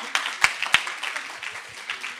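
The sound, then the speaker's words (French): Audience applause, light and scattered, with a couple of sharper, louder claps early on before the clapping thins to a faint patter. “Donc, je pense qu'on peut les applaudir déjà pour ça.”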